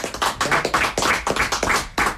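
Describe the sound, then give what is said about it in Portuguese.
Applause from the audience at a fado night for a Portuguese guitar player. It is a loud, dense run of many claps that swell in regular surges, with no talk over it. “Uma salva de palmas para ele, vamos lá.”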